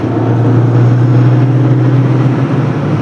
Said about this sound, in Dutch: Kijk, je, zie je, nou schakel je over naar de overdrijf. Hij zakt dan eh, gewoon eh, een paar honderd toeren.